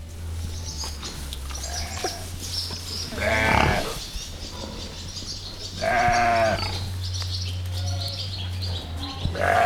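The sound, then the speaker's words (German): Sheep bleating among farm animals at the Gut Eiderbichl animal sanctuary near Deggendorf: two loud, wavering bleats stand out over faint bird chirps and a steady low hum. “Und von jeder Seite hört man ein anderes Tier. So ist der erste Eindruck von Gut Eiderbichl. Schafe, Schweine, Kühe und Hühner finden Unterschlupf auf dem Gut in Eichberg nähe Deggendorf.”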